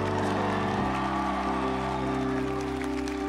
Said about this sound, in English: Clap your hands if you're from Vegas. Clap.